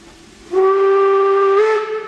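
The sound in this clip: Steam whistle of a steam-driven park railway locomotive at a small-railway anniversary celebration: one loud, steady, harmonic-rich tone that begins abruptly after half a second and holds with a slight brightening near the end.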